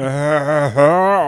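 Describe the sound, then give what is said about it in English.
A voice imitates a lung collapsing in a role-playing game, holding a strained, buzzing vocal tone that dips sharply in pitch midway and then rises back. “That's the sound of one of his lungs collapsing.”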